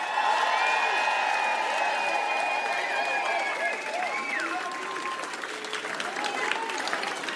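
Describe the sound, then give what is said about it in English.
Crowd applauding and cheering for a DJ at a concert, a dense, steady wash of clapping with high whistles and cheers that eases slightly toward the end. “Everybody, can you all make some fucking noise for DJ Nejo?”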